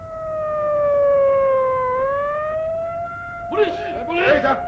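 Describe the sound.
Police siren wailing in a drama: a sustained, loud tone that dips lower and then climbs back and holds. Voices break in over the siren during the last second or so.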